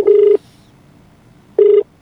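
Telephone tones as a line is dialed for a radio call-in: two identical steady electronic beeps, each about a third of a second long, separated by a pause of over a second.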